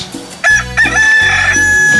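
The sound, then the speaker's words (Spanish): A pet rooster crows once, a loud, strained call with a sharp onset and a high, sustained tone lasting about a second and a half, alone. “así le canta mi gallo. El gallito de gallitos.”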